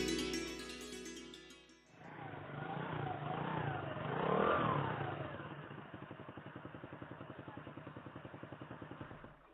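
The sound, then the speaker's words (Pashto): A motorcycle engine revs up in a rough, swelling roar, then settles into a rapid, even chugging pulse that sputters on steadily to the end. “دا ولې دا څنګه بند شوې را؟ اوه موټر سایکل تا خو زه په داسې ځای کې پرېښودم چې دا پسې کېږي.”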